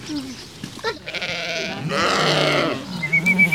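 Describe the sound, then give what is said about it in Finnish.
Sheep bleat among farm animals at a petting zoo in an animal park, with two drawn-out, wavering bleats in close succession over a quiet background. “Tiedeleirillä Vehmasmäen eläinpuistossa lapset ruokkivat puttipossua ja latelammasta.”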